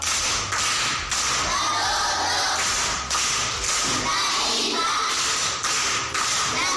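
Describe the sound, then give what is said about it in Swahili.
Applause for a pupil at a primary-school riddle session: dense, steady clapping from a group that continues without a break, with slight dips in loudness. “Makofi kwa mjomba.”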